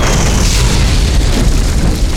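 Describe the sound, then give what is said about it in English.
Mortar shells exploding among wagons make a loud, dense roar of blast noise that stays constant for the whole stretch, with no clearly separate bursts. “A fall of mortar shells blasting man, animal, and wagon into pieces.”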